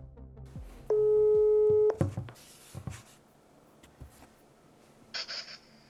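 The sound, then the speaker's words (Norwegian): A telephone ringback tone plays while a call to a mother goes through: a single steady, mid-pitched ring lasting about a second, followed by quieter, scattered sounds and a brief higher tone near the end. “Jeg spurte Adrian om vi kunne ringe mammaen hans for å spørre om hva som egentlig skjedde da familien flyttet til Sveits.”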